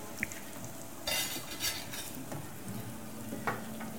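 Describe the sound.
Food is stirred in a pan, with a soft sizzle throughout and a few brief scraping and clinking strokes of a utensil against the pan.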